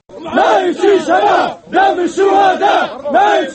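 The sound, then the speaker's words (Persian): Opposition militia fighters cheering and chanting in Benghazi, Libya, with loud, rhythmic bursts of many voices, a brief pause in the middle, then more repeated chants. “این صدای ملیشه های مخالف معمر القذافی در شهر بندری بنغازی است که دیروز بعد از آن خوشحالی میکردند”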